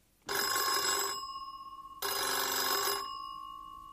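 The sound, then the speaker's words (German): A telephone bell rings twice: two loud bursts of bright, sustained metallic jangling. The first trails off slowly before the second starts, and there are no voices. “neulich hat sie den Meister Eder, ihren Onkel Franz, also angerufen.”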